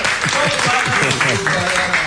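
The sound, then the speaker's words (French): Audience applause at a DJ event in Abidjan: dense, steady clapping fills the whole clip, mixed with voices and tonal sound. “donc on applaudit pour Manassé. On applaudit Manassé.”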